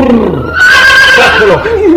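A horse neighs: a brief low call followed by a long, loud whinny that quavers and slides downward in pitch toward the end.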